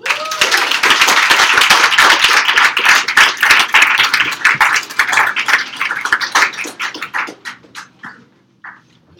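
Audience applause for a poet at an open mic poetry night: loud, dense clapping that thins into scattered individual claps and fades out near the end.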